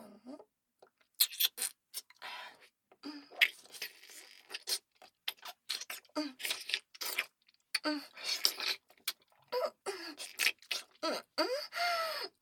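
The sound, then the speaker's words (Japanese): Quiet chewing and eating of food in a thick, gooey broth. Many soft, wet smacks, clicks and squelches come in an irregular rhythm, with no talking. “おいしそう。いただきます”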